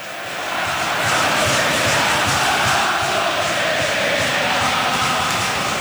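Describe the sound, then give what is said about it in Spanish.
Football crowd chanting at Mestalla stadium in Valencia during a match, a loud, dense roar of many voices that swells over the first second and then holds steady with a faint rhythmic pulse. “Arranca Carlos Betella, Dani. Abro el micro, así sí. Suena Mestalla.”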